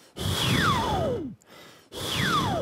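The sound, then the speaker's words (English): Breath pushed out through the mouth while the mouth shape changes, a warm-up for shaping wind-like textures: two long, airy exhales separated by a short gap, each carrying a whistling tone that glides steadily downward. “I breathe out while trying to change my shape of the mouth so that I can like practice my like mouth changing shape and also like the breathing out technique at the same time.”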